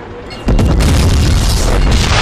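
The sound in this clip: A loud explosion as an enemy tank is destroyed in a combat video game, a sudden heavy boom that breaks into a sustained, rumbling roar.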